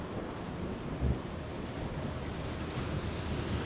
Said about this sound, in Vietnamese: Bên ngoài trời vẫn âm u. Mây xám đua chen che kín cả bầu trời. Những giọt mưa đầu tiên đã ngấp nghé rơi, là mặt biển đã động, nay còn dữ dội hơn.